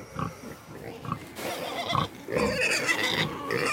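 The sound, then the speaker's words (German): A wild boar herd of a large boar, six sows and twelve piglets grunts and smacks in a pine forest, a steady stream of low, rough grunts and wet chewing noises of moderate loudness, without talk. “Ein stattlicher Eber, 6 Bachen und 12 Frischlinge, die sich in einem Kiefernwald grunzend und schmatzend bemerkbar machen.”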